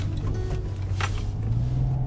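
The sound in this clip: A car is being driven, giving a steady, low engine drone that holds an even level without clear revving.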